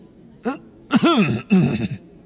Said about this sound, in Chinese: 邓布利多清了清嗓子。